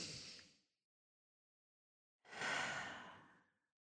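Deep, slow breaths taken during a guided breathing exercise: a soft airy breath fades out, then after a pause of silence a longer, fuller breath swells and gently dies away, with no talking.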